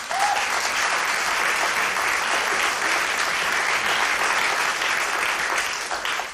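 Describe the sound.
Audience applause after a live jazz performance: a dense, steady wash of clapping that holds at an even, fairly loud level from start to finish.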